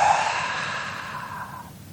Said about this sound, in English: You can even take a deep breath in. Then on the out breath, just let it all go.